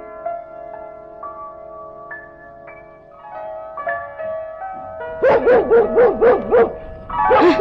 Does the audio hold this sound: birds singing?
no

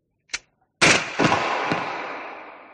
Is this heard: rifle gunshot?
yes

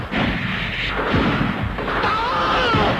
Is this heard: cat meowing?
no

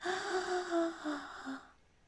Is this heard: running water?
no

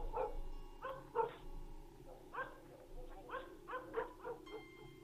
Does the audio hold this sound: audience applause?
no

